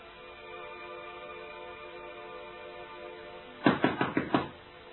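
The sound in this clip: Knocking on a door: a quick burst of several sharp, closely spaced knocks arrives near the end, standing out above a steady, faint tonal background.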